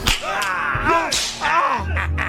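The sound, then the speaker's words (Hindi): A constable's whip lashes someone in a few sharp, bright cracks, heard amid agitated voices speaking loudly throughout. “साहब इसको Hunter मारो।”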